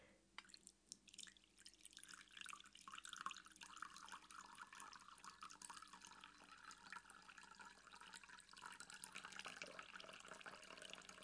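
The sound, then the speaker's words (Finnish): Freshly brewed coffee, made from dark-roast, high-mountain beans ground just before, is poured in a thin, faint, trickling stream that runs steadily for about eleven seconds. “Hyvää kahvia, aromirikasta. Kaadetaan vähän.”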